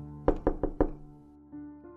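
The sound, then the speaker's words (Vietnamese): Four rapid, sharp knocks on a door in quick succession, followed by two fainter, more tonal thuds. “Bên ngoài tiếng gõ cửa lại vang lên dồn dập”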